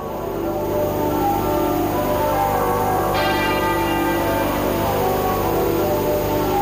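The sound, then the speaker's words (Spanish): Church bells at Westminster, St Paul's Cathedral and Windsor Castle toll in unison to mourn the death of the British queen. The sound is a dense, sustained ringing wash over a low hum, with a fresh strike entering midway. “Escuchábamos ahora mismo cómo a esta hora doblan al unísono las campanas de Westminster, de la Catedral de San Pablo y también del Castillo de Windsor.”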